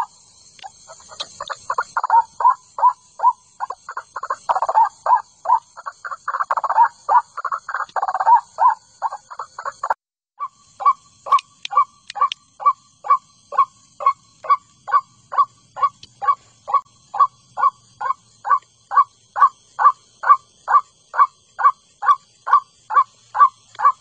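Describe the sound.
A bird calls in a long series of short mid-pitched notes, rapid and uneven for the first ten seconds. It then settles into a steady, evenly spaced rhythm of many repeated calls, with faint high tones running through the opening part.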